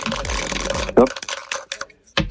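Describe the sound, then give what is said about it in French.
Dice rolled during a board game make a brief clatter of quick, rattling knocks, then a short silence. People talk before and after the roll. “En attendant, je vais vous inviter à lancer les dés.”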